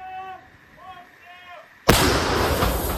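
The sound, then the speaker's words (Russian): An artillery gun of a Ukrainian brigade fires during fighting near Bakhmut. After a brief raised voice, one sudden, very loud blast hits and rolls on as a sustained roar. “Это артиллерия 22-й бригады ВСУ. Она сейчас помогает украинским подразделениям, которые как раз штурмуют Бахмут с флангов.”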